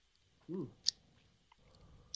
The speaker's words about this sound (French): Je vais verser un peu de ma sauce australienne dans la sauce Barrington. Oui, c'est ça. Faut pas, faut pas scraper la, sauce australienne. Je vais goûter avant vous, OK?